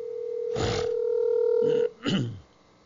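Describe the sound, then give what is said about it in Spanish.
A steady electronic telephone tone plays while a callback call is placed, holding for nearly two seconds with brief muffled noises over it, then cutting off before a short low rustle. “vamos a llamarle para atrás al hermano, a ver si nos contesta.”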